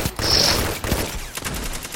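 Fusion rifle fire in a multiplayer shooter video game, a loud burst of rapid energy-weapon shots with a brief high whine near the start, followed by a few more sharp cracks and game noise.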